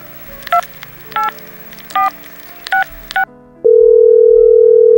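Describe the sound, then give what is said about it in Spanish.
A telephone number is dialed on a touch-tone keypad: five short, evenly spaced beeps, then a loud, steady, unbroken tone that holds to the end. “Y hace una llamada.”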